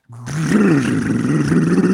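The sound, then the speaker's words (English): A voice imitates a car starting with a loose muffler after a side collision wrecked its back quarter panel. The rough, raspy, low rumbling growl starts abruptly and holds steady and loud for about two seconds. “it knocked the muffler loose so that when my mom would start it, it would like,”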